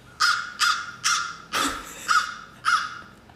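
Harsh raven caws come in a short series of six loud, rasping calls, evenly spaced about half a second apart, each with a quick attack and a brief fade, with nothing else heard around them.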